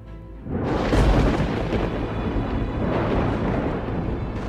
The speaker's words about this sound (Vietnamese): Quý Điên giơ cao tay gầm lên một tiếng, một tia đại lôi từ trên cao được pháp trận dẫn xuống giáng thẳng vào tấm ngọc bích. Tiếng nổ đùng đùng đinh tai nhức óc.